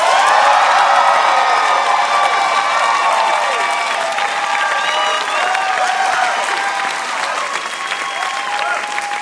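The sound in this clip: Audience applause and cheering for a contestant at a singing competition: a dense, loud, steady clatter of clapping mixed with whoops that runs the whole time and eases slightly toward the end.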